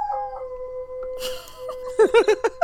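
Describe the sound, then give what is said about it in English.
A dog howls in a long, steady, tonal wail, then breaks into a few short, pulsing cries near the end. “What is happening? That's my dog.”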